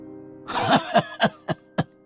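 An old man's short burst of laughter gives way to four sharp, violent coughs in quick succession, each cough a loud, separate rasping hit.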